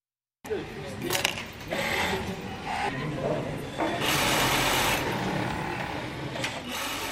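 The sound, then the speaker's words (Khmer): Sewing machines clatter in a textile factory in Rwanda, where hundreds of tailors sit side by side at their machines; a dense, steady mechanical rattle runs throughout, with indistinct voices mixed in. “សំឡេងចង្វាក់នៅក្នុងរោងចក្រនៅរោងចក្រវាយនភ័ណ្ឌក្នុងប្រទេសរ្វ៉ាន់ដានេះកម្មករកាត់ដេររាប់រយនាក់អង្គុយក្បែរគ្នានៅតាមម៉ាស៊ីនដេរទាំងឡាយ”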